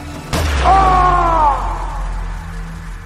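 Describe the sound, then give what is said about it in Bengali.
A single gunshot fired into a pit: one sharp, loud crack followed by a sustained ringing tone and a steady low rumble that fades slowly. “সঙ্গে সঙ্গে কাকাবাবু গুলি করলেন গর্তের মধ্যে।”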